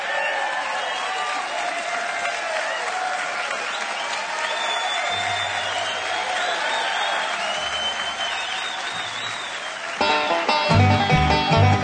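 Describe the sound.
Audience applause welcoming a Grammy-winning band on stage: about ten seconds of steady clapping and crowd noise, then the band starts to play.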